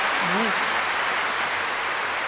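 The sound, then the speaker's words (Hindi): Steady, dense applause from a large audience at a Hindi-speaking gathering, a continuous even wash of many hands clapping, with a brief voice rising over it near the start. “अच्छी तरह ताली बजाइए, ये गौरव का विषय है।”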